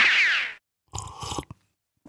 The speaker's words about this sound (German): nochmal einen kräftigen Schluck Kaffee